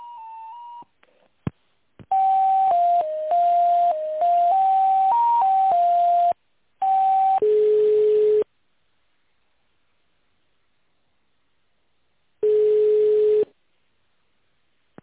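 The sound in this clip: Telephone line tones play while a call is transferred to an accounting department: a melody-like run of electronic beeps stepping between pitches, then longer steady tones separated by stretches of silence.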